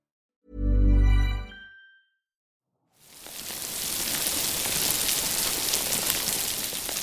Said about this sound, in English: What you're actually listening to is one of the most important pieces of marine life. This is the sound of a healthy coral reef.